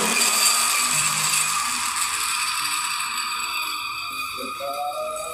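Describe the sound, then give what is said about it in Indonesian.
A kitchen blender switched on and running, a whirring, rattling mechanical drone with a ratchet-like clatter, loudest at the start and settling into a steady churn as it runs on. “kita masukkan ke blender uh, sebentar nah oke okay. langsung nyalakan saja pegang ini”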